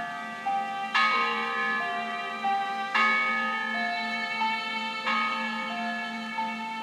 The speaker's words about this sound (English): The bells that we recorded